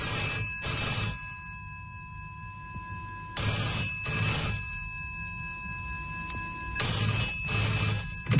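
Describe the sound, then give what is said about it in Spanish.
A telephone rings with an incoming call from a hospital's on-call doctor on a Saturday evening in 1967, sounding three paired bursts of bright, rattling rings separated by short pauses, with a faint steady tone underneath. “el doctor Barna recibe una llamada telefónica del médico de guardia de su servicio”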